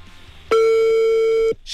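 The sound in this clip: A telephone line tone sounds after a call is dialed: a single steady, loud, level beep lasting about a second, preceded by faint low background noise and with no voices.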